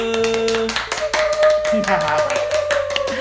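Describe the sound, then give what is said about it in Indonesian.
Audience applause of dense, continuous clapping from a crowd, with steady tonal sounds running underneath throughout. “give it up applause for Riva and Oce.”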